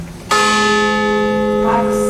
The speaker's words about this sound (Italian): 262 i rintocchi della campana accompagnati dai nomi delle vittime.